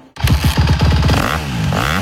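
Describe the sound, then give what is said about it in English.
A Honda motocross bike engine revs hard in loud, buzzy, rapid pulses, then swings up and down in pitch through several further revs. “the hottest motocross bikes of the season are in stock and ready to go”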